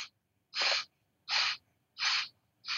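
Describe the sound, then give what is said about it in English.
Forceful breaths drawn through one nostril during an alternate-nostril breathing exercise. Short, hissing bursts repeat at an even rhythm, each fairly loud and separated by near-silent gaps. “Now breathe out through the count of eight, switch nostrils. So you breathe out through the count of eight,”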